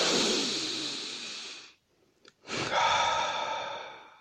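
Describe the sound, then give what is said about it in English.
A person taking a deep breath: two long, loud, breathy rushes of air with a brief near-silent pause between them, and no talking. “All right, I'm going to just take a breath. You want to take one with me?”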